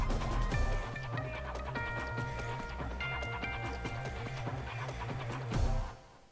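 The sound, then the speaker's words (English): Sharp cloven hooves clattering up a rocky mountainside in many quick, irregular taps over a steady tonal background, ending in a louder scrape. “Sharp, cloven hooves find tiny holds in the rock face. And strong legs power them up the mountainside.”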